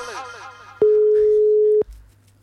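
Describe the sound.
A telephone busy signal from a failed call: after brief talk, a single steady tone sounds loudly for about a second, then cuts off abruptly.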